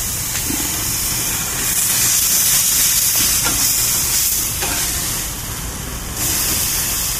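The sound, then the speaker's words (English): Burgers sizzle over a flaming grill while being flipped, a loud, hissing fry that swells and eases a few times across the stretch. “There's burger number two flipped. Good Lord, there's still plenty of flambeau on that one, too. You can flip over fire. It's really big.”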